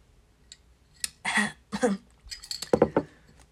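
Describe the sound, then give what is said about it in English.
Drinking from a glass: quiet clinks and handling noises come in a few short, scattered bursts over a few seconds. “Hold on. I need a drink.”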